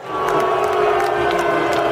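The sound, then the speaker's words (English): A crowd boos President Trump at a baseball game in Washington. The loud, dense chorus of jeers holds steady throughout. “Trump received this welcome during a rare night out in Washington.”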